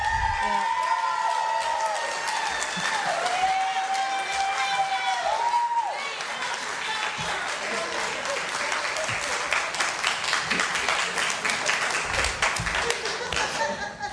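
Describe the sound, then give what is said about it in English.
Audience applause and cheering fill a public meeting, a dense, steady wash of clapping with scattered whoops that holds loud for about fourteen seconds, with voices mixed into the crowd noise. “Hey, I don't ever get that kind of reaction. Has anybody ever cheered for you like never.”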